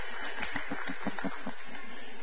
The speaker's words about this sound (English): So, kids, would y'all clap for the kids as they waddle and run and all that stuff out the back door?